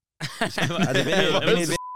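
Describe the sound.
A single steady, mid-pitched censor bleep, short and clean, cuts in right after a stretch of a man talking in German.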